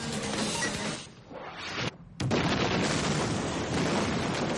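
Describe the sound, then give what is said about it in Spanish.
A film explosion blowing up a mobile unit van: a rushing roar thins out, drops briefly to near silence, then a sudden loud blast bursts in and keeps roaring to the end. “Se produce una explosión y la unidad móvil vuela por los aires sin que haya rastro de luces.”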